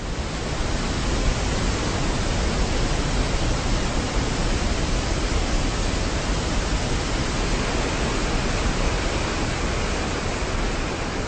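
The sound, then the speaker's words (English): Thunderous falls plunging into a rocky gorge give off a loud, steady roar of rushing water. The dense, even wash of noise holds at a constant level throughout, with no breaks and no voices. “I can hear them. There they are at last, the thunderous falls.”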